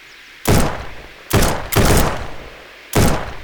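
Four gunshots go off in a radio drama as a fleeing suspect fires. Each is a sharp, loud bang with a short decaying tail, and the shots come at uneven intervals.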